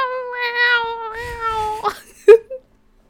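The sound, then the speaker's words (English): A cat yowling outside: a long, drawn-out, wavering cry, then two short, sharp yowls before it falls quiet. “It was like some kind of weird cat.”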